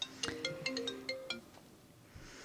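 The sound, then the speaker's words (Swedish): A phone's ringtone plays a short, faint melody of bright electronic notes in quick succession over about a second, then fades to quiet. “Och då ringer det, ja, på en gång.”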